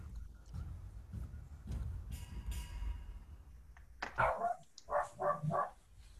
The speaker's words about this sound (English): he won't stop barking, bro.